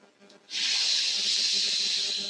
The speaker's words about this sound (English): Feel the calmness in your throat while inhaling from the mouth, like that.